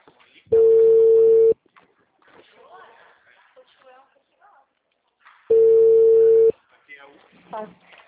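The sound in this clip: Two long, steady telephone line tones sound after a dropped call, each lasting about a second. A person talks quietly in the pause between them and again after the second tone.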